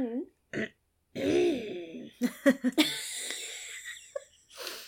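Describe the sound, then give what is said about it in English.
Someone clears their throat in a deep, old-man style. A few rough, gravelly rasps and a drawn-out voiced grunt lead into several short, harsh hacking bursts, then a breathy tail. “That's a proper old man clearing the throat then.”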